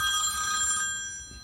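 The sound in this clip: Telephone ringing, a bright, high-pitched, bell-like trill that holds steady and then eases slightly softer toward the end, with no voices.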